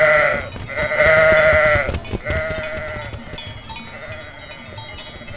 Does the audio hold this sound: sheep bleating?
yes